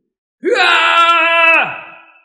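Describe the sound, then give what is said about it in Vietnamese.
A single long scream from the sky, loud and strongly tonal. The pitch rises at the start, holds steady for about a second, then slides down and fades away. “Không trung truyền đến một tiếng thét dài.”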